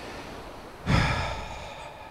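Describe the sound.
A single audible exhale during a guided breathing exercise. A breathy rush starts abruptly and fades out over about a second, with no talk.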